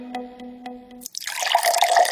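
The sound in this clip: Tap water suddenly gushes and splashes after a few soft tonal notes, continuing as a bright, steady running stream to the end.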